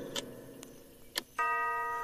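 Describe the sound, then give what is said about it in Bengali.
Grandfather clock on a veranda at midnight: a few faint, sharp ticks, then a single resonant chime strike that rings out steadily to the end. “সঙ্গে সঙ্গে বারান্দার grandfather ক্লকটা শব্দ করে উঠল ঢং ঢং ঢং ঢং করে বারোটা ঘন্টা”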